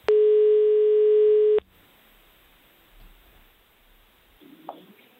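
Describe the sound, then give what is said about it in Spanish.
A telephone tone sounds as a live call is placed: one loud, steady tone holds for about a second and a half, then cuts off into near silence with a few faint clicks and rustles. “Estamos aquí marcando en directo el teléfono. Vamos a ver si podemos hablar con ella en directo.”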